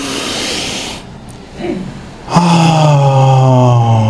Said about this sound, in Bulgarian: Поеми дъх дълбоко, издишай.